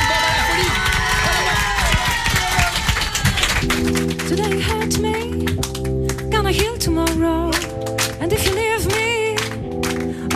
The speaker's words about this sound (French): applaudissez et kiffez, quoi. D'accord. Et eh ben alors, faites du bruit pour eux.